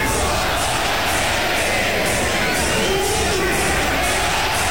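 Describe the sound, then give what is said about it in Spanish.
A bullring crowd in the Plaza México cheers a bullfighter's muleta passes, a dense, steady roar that holds at an even loudness from start to finish. “Más de 100 muletazos fueron coreados por el público.”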